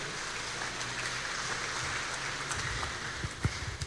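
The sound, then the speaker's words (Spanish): Faint applause during a church service: a soft, even patter of clapping from the audience, with a few sharper, louder claps standing out toward the end. “Dele fuerte ese aplauso, señores.”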